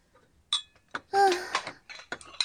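Cooking in a kitchen as a mother prepares a meal: a few sharp clatters and clinks of dishes and cutlery, one with a ringing metallic tone, scattered among softer knocks.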